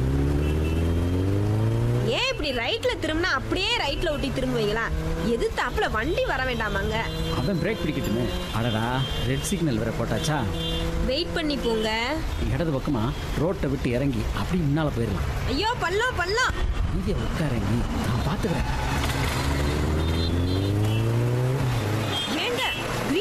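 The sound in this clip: A vehicle engine revs and pulls away, its pitch swooping up and down as it speeds along, running continuously beneath people talking.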